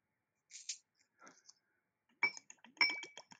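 Dark and Stormy rum cocktail being mixed, giving faint glassy clinks and rattles in a few short bursts, the later ones busier and brighter, separated by near silence.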